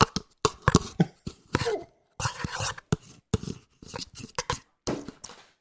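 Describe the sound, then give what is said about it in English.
Someone eating yogurt, a quick run of many short wet clicks, smacks and small taps in irregular bursts, fairly faint, with brief silences between the clusters. “That definitely sounds like you're eating yogurt. That's what the sound is.”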